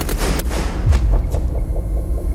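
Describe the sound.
A firing-squad volley of gunshots at an execution in a fort south of Paris, heard as a dull, deep boom with lingering low rumble and a few faint sharp cracks, without voices.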